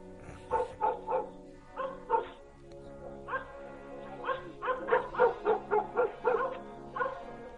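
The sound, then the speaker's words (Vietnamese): Dog barking at night, a dog chained on a house porch near a builders' sleeping shelter, giving many sharp, harmonic barks and yips in irregular bursts that grow louder and more frequent toward the end. “Có tiếng gì đó, nó giật mình, dường như là tiếng chó sủa ở đâu.”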